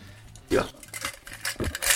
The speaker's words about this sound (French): j'ai une petite marotte, c'est d'ouvrir toutes mes bombes usagées et de récupérer les billes qu'il y a dedans.